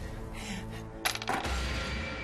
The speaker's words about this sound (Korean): 자, 그럼 다음 문제를 풀려면 계속해서 주사위를 던져 주세요.